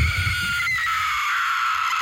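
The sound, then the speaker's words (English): A short scream sound effect: one shrill, high-pitched cry held at a steady loud level for about two seconds. “Oh, we're back to the original Scream. I wouldn't say the original, but the shorter version.”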